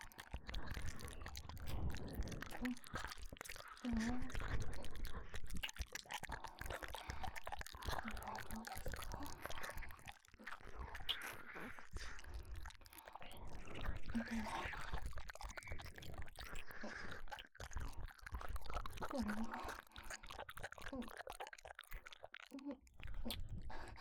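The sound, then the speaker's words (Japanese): Chewing, done to give stimulation: continuous close-up mouth sounds with many small crunchy, wet bites and soft smacks running throughout at an even, fairly quiet level. “もう少し刺激を与えるために少し噛んでみます。”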